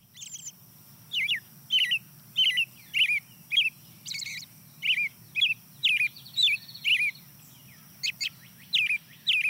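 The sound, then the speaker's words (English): An American robin sings at a field edge in many short, bright, high phrases in a steady, repeated rhythm. A low, constant rumble runs underneath. “Starts off with the American robin, the early riser.”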